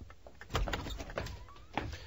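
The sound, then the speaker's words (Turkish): A house door is opened, with a quick series of clicks and rattles from the latch and handle and a short squeak partway through, at moderate loudness and without voices. “Şimdi gidip kapıyı açabilirim.”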